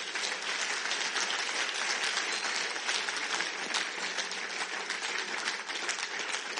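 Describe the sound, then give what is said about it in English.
Audience applause at a worship gathering fills the whole stretch, a dense, steady wash of many hands clapping at even loudness from start to finish, with no voices standing out. “Clap for the Lord.”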